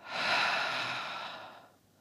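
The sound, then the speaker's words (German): A single soft breath in a guided breathing and relaxation exercise, a faint, airy rush that swells quickly, holds, and then fades away over about two seconds. “Einatmen schafft Weite. Und ausatmen, lasst los.”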